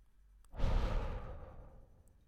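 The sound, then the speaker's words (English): A single long exhale during a quiet, guided relaxation meditation, soft and breathy, swelling quickly and then fading gradually into stillness. “Let's start off by exhaling all the breath from our body.”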